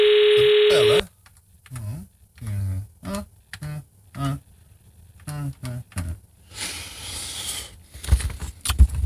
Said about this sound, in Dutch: Ik moet er echt maar even bellen.